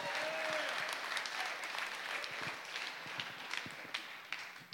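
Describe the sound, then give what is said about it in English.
A church audience at Lake Church applauds a guest pastor coming up one morning, a dense, steady wash of clapping that thins slightly toward the end. “And so if you would you give it up for Pastor Ken Spicer as he comes up this morning?”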